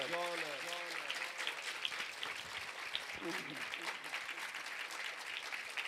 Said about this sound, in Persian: هر چقدر به این آقا ارادت داری بازم دست بزن